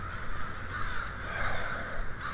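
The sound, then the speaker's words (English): Crows cawing at their roost in a town square. Many harsh, overlapping caws run continuously at a steady, fairly loud level, with no talk. “the crows definitely seem to enjoy roosting here”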